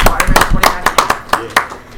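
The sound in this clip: Sparse, sharp claps from a small group applauding a guest called up on stage, about a dozen distinct slaps in uneven succession that trail off toward the end.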